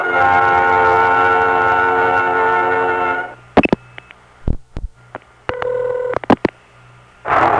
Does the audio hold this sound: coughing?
no